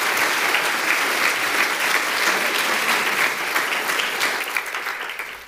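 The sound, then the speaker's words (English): Congregation applauding in a church as a member is welcomed up. The clapping is dense and steady, holds at an even level throughout and thins slightly near the end. “You can give him a hand.”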